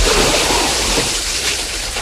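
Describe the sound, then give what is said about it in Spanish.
Water splashing from someone swimming doggy paddle across the Mediterranean: a continuous, loud, dense wash of churning water with no clearly separate strokes, steady throughout. “Atraviesa el Mediterráneo nadando a perrito.”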